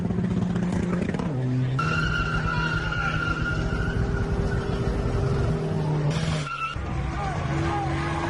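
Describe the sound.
Cars drift and rev at an improvised night street meet in an industrial estate. Tires squeal and skid over a sustained, high engine whine, loud and continuous throughout.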